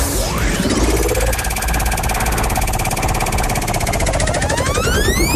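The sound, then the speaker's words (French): A spinning prize wheel on a game show gives off loud, dense ratchet-like clicking without a break. Sweeping tonal sounds run alongside the rapid clicks. “Alors pour ça il va falloir faire tourner la roue, donc il va falloir me dire top, tout simplement.”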